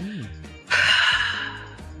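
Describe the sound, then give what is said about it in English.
A voice imitating heavy breathing: a brief vocal sound followed by one loud, breathy, hissing gasp that holds for nearly a second before easing off. “Heavy breathing.”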